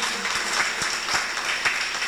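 An audience at a church service breaks into applause, giving a brief burst of steady, dense clapping at an even level.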